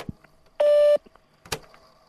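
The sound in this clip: A voicemail recording tone: one steady, loud electronic beep lasting under half a second, with faint clicks and short bursts of sound before and after it.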